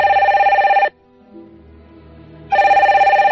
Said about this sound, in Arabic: بعد أقل من ربع ساعة رن هاتف الرجل.